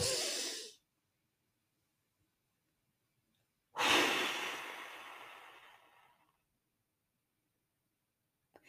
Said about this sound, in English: So a basic breathing practice that I use that's worked really well for me is to just take 4 seconds deep breath in and then 4 seconds deep breath out.